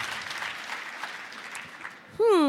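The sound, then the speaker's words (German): Dense applause from an audience cheering contest finalists fills most of the stretch as a steady, even wash, then gives way to a short, clear tonal sound at the very end. “Riesenapplaus bitte für, Applaus bitte für unsere Finalisten und Finalistinnen.”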